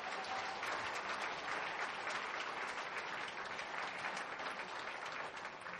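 Applause from a church audience after staff sing a hymn: soft, dense clapping that continues evenly throughout.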